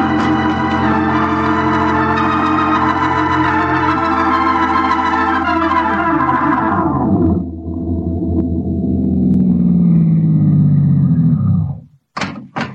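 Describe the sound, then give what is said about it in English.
A getaway car's engine runs loud and steady outside a waterfront cafe. Its rich drone sinks in pitch midway and settles into a lower idle, then cuts off abruptly, followed by a couple of short knocks. “Keep the motor going for a quick getaway.”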